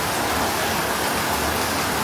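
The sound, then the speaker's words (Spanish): Steady rain falls on an afternoon, a dense, even hiss that holds at the same loudness throughout with no voices. “Esto es algo muy bonito. Una tarde lluviosa.”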